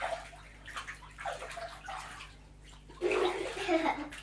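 Water sloshes and splashes in a bath as someone is rinsed off. Irregular pouring and swishing surges in soft bursts, then grows louder and busier toward the end.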